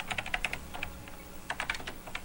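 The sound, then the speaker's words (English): Rapid clicking of two-finger typing on an old clicky computer keyboard, in two quick bursts of keystrokes separated by a brief pause. “she's touch typing it with two fingers.”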